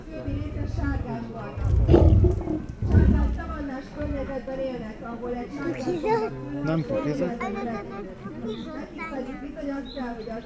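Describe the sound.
A lion roars at a zoo while meat is thrown down to it from a roof at feeding time. A couple of deep, loud roars burst out early, then quieter rumbling continues under a guide talking throughout.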